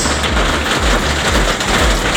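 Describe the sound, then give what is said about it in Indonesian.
Heavy drizzle falling at night in the Rodowo area, a dense, steady wash of hissing rain that stays loud and even throughout with no breaks. “Tinggal gerimis aja, gerimis deras.”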